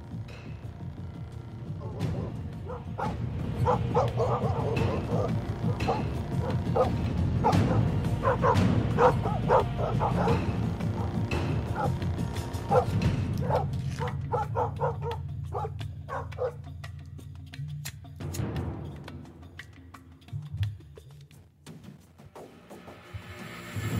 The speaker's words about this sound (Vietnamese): Lập tức, chó của cả khu ấy cắn hóng ra bên ngoài ông ổng.